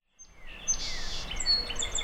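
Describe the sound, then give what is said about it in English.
Forest birdsong from song sparrows and dark-eyed juncos in the Laurel Highlands: several thin, high chirps and whistled phrases overlap above a soft, steady rushing background, at moderate loudness. “Here in the Laurel Highlands, bird calls ring out across the forest from song sparrows, dark-eyed juncos, and other species.”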